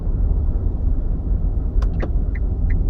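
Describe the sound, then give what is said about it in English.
Car driving on cobblestones: a loud, steady low rumble of tyres and engine runs throughout, with a few brief higher ticks and squeaks in the second half and no voices. “Driving on cobblestone is weird.”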